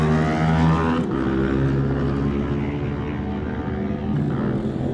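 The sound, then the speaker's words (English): Loud, sustained engine roar from an R7 supersport racing motorcycle at speed, a dense harmonic drone that holds steady for the whole clip with only a brief dip in level near the start. “Francesco Coringa next to go on the Delmo Racing R7 Super Sport bike.”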